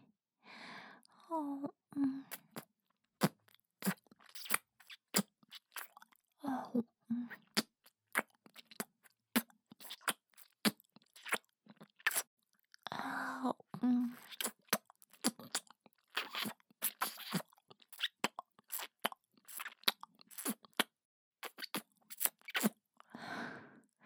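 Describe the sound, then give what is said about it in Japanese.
Wet mouth eating and chewing sounds on an ear coated in sweet maple-flavoured lotion: many soft, sticky clicks and smacks in an irregular, close rhythm, with occasional breathy, voiced mouth noises between them. “あなたの耳、ローションの甘いメープルの味がしておいしい。もっと食べたい。”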